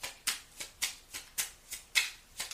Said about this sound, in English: Let me go ahead and take two cards from the Divine Doors right quick. May I have two cards for Leo, please? May I have two cards for Leo?